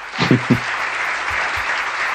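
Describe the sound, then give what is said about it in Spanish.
Recorded applause in a steady, dense burst of clapping that stays level throughout, with a couple of low thuds near the start. “102.9 te regala este hermoso aplauso.”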